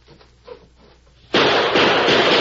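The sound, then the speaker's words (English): A gunshot blows out a window: a sudden, loud burst of harsh, broad noise that cuts in abruptly partway through and holds at full strength to the end, after a quiet, murky stretch. “What's the idea of shooting out the window?”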